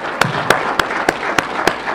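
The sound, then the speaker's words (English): Congregation clapping in a steady rhythm, seven sharp, evenly spaced claps standing out over a continuous wash of sound. “how much we deserve to honor them with a round of applause for their life's dedication to the gospel of Jesus Christ.”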